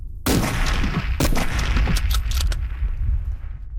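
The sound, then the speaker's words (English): Rifle shots are fired at range targets in a relay: several sharp, loud cracks at irregular intervals, each trailing off into a rumbling echo. “I use 2 magazines, a total of 10 shots.”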